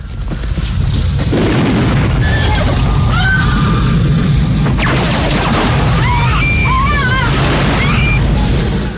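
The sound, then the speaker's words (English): A house exploding in a Rambo action film during a scene with a Russian attack helicopter: a loud, sustained roaring crash and rumble that fills the whole clip, with high, wavering tones sweeping over it. “Rambo leaps a low stone wall on horseback, then dismounts and takes cover by a house, which explodes.”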